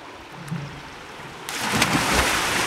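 Water splashes as a person jumps into a tub of water and swims. A quiet stretch gives way to a sudden, steady wash of broad splashing noise that carries on to the end.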